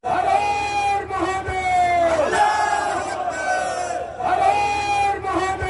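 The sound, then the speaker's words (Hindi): A large crowd at a farmers' panchayat chants the slogans Har Har Mahadev and Allahu Akbar in unison. The loud, drawn-out chanted phrases repeat, pause briefly and then start again. “हर हर महादेव और अल्लाह अकबर के नारे महेंद्र सिंह टिकैत के जमाने से किसान पंचायतों में लगते रहे हैं, लेकिन अब यह मुजफ्फरनगर दंगों के 7 साल बाद सुनाई दिए हैं।”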